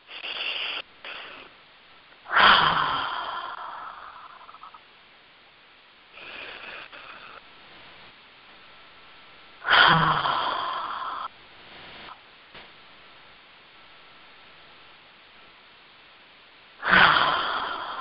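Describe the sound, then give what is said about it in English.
Breathing in through the nose with the mouth closed, then exhaling with an audible "ha": three forceful, breathy exhales, each starting loud and fading over a couple of seconds, with quieter nasal inhales between them. “breathe in through your nose with your mouth closed, and as you exhale, let out a ha.”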